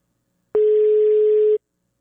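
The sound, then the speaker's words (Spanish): A single steady telephone tone while a call is being dialed: one even, mid-pitched beep about a second long that starts and stops abruptly, alone with no talk. “Ahí estoy llamando a la fundita de Gaby Martín.”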